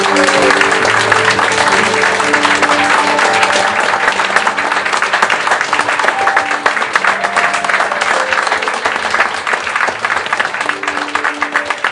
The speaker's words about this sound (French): Est-ce que, s'il vous plaît, par vos applaudissements, vous pourriez leur transmettre toute la passion qu'ils ont essayé de vous transmettre ce soir et leur dire merci?